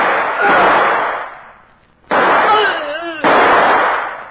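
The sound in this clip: Three loud .38 gunshots in a radio drama, harsh bursts that each ring out briefly, with a raised voice heard between the later shots.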